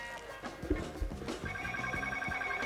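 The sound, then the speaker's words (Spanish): A telephone rings with steady, sustained electronic tones that begin partway through, sounding over a rhythmic low thumping backing. “Creo que tenemos una llamada.”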